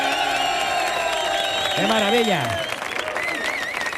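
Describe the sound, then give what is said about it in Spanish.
Stadium crowd cheering and applauding in a loud, steady wash of claps and shouts, with a man speaking excitedly over the noise throughout. “que suena así de fuerte. Mira cómo suena el público.”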